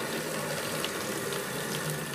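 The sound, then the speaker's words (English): Water pours steadily into a watertight container being filled for apple bobbing, a continuous, fairly even rushing and splashing with no pauses and no voices. “you have to wash the apples and you have to fill up the container with water.”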